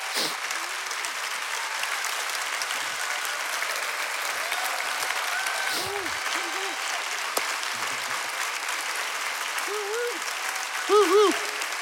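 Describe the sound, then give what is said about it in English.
An audience gives a standing ovation, its applause a dense, steady roar of clapping that holds at an even, loud level for the whole stretch. “I would have gotten up for the standing O, but I don't know if I could get,”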